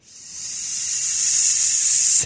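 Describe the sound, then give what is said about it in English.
A threatened hognose snake gives a loud, breathy, high-pitched hiss that swells slightly, holds steady for about two seconds, then cuts off abruptly. “When threatened, hognose snakes hiss loudly like this.”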